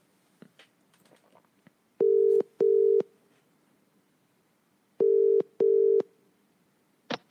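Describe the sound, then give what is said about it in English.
A telephone dials out to a caller for a football fans' phone-in, with two pairs of steady double-pulse ringing tones separated by a pause. Faint clicks and rustling fill the gaps. “Right, let's dial up the next caller.”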